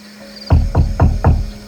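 Four firm knocks on a front door land in an even, steady rhythm, each a loud, woody thud over a faint background hum.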